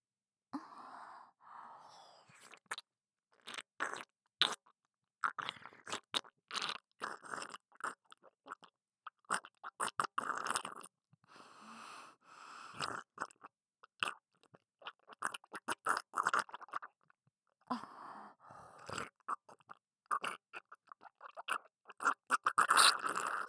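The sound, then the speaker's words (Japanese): Eating and chewing sounds made close to the ear: many soft crunches, bites and moist chewing noises in an irregular rhythm, faint and intimate, with small pauses in between. “それでは耳元でいただきます。”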